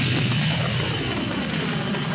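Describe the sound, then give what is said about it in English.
Spaceship engines fire with a steady, dense, full-range roar that holds even in loudness throughout, with no voices. “Instantly, the loyal Wookiee Chewbacca fired the Falcon's engines and raced to save his friend.”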